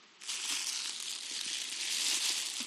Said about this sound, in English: Well, let's jump in today and unwrap the next gift that we receive from God.